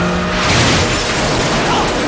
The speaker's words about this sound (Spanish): no puede evitar chocar contra un camión estacionado en el puente